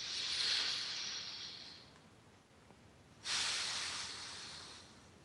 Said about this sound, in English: And then what you do is you take in 3 deep breaths and make sure with every exhale you fully complete the exhale.